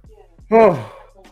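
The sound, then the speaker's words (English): A man yawns late at night: one loud, drawn-out voiced yawn that swells suddenly and slides slightly downward in pitch over about half a second before trailing off into quiet breathing. “I was trying to get out here before I yawned again. Damn. Pardon me, y'all. It's pretty late.”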